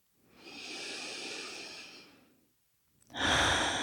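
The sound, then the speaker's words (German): Deep breathing through an open mouth: one long, airy breath swells and fades, a short silence follows, then a louder, breathier breath starts near the end, with no talking. “dann nimm hier ein paar tiefe Atemzüge ein und aus. Geh mal durch den geöffneten Mund.”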